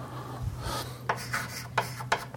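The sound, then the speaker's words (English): Writing on a board during a mathematics lecture: a long scratching stroke, then several short, separate strokes that scrape in quick bursts over a faint low hum. “And I'll write it in a slightly different form.”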